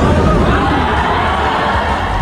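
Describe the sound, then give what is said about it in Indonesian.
Crowd roar at a professional boxing match in Gor Terpadu Ahmad Yani, Pontianak: thousands of spectators cheer and shout in a loud, continuous, dense wall of sound. “Gemuruh sorakan penonton mewarnai pertarungan dua petinju profesional ini. Ribuan penonton memadati Gor Terpadu Ahmad Yani”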